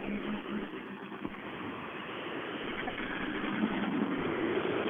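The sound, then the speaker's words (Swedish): Race car engine running as the driver puts it into first gear, a dense, steady mechanical rumble that holds throughout and grows slightly louder near the end, with no talk over it. “Han lägger i första växeln här nu och är alldeles, alldeles strax på väg in till mig.”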